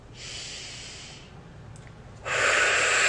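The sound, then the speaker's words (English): Deep breath drawn in by a person leading a meditation ceremony: a soft, airy inhale, a quieter pause, then a stronger rushing breath sound that carries to the end. “I'm going to take a deep breath in again.”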